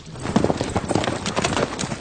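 Horses' hooves clip-clop as riders set off during a film shoot, a continuous run of many rapid, uneven hoof beats at a steady, moderately loud level.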